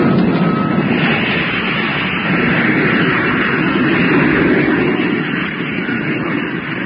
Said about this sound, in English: Motor about to be fired for descent. Are you ready? Ready. Firing in 5 seconds from now. 4, 3, 2, 1. Contact!